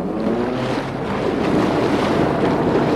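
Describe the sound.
Storm wind and waves toss a raft at sea, a loud, steady roar of gusting wind and surging water that holds without a break from start to finish.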